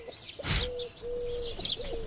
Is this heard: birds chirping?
yes